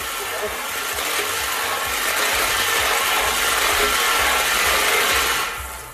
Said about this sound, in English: Let's spin those balls.